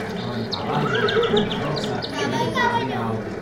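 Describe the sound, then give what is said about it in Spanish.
A horse neighs in a few whinnying bursts, with voices talking throughout. “Caballo.”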